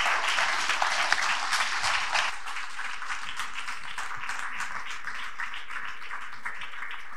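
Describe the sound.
Applause from a church audience welcoming a guest pastor: a dense, steady wash of many hands clapping through the whole stretch, a little louder in the first couple of seconds before settling to an even level.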